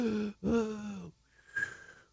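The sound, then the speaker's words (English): A voice imitating asthmatic wheezing from narrowed bronchial tubes in the lungs: two strained, groaning voiced breaths followed by a thinner, higher whistling wheeze, all fairly faint. “Asthma is caused by bronchospasm. It's a narrowing of the bronchial tubes in the lungs, so they wheeze like,”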